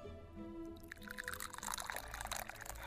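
Tea is poured clumsily in a faint, splashing trickle that begins after a brief pause and grows busier and more irregular toward the end.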